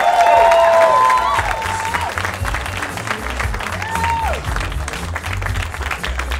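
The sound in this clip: Audience applause welcoming a host onto the stage at a live storytelling event: sustained, steady clapping from a crowd, with a few high whistles near the start.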